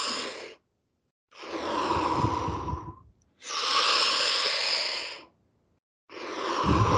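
A swimmer breathes deeply and slowly, all the way in and all the way out, as if preparing to swim underwater. Long, loud, airy breaths come one after another, separated by brief silent gaps.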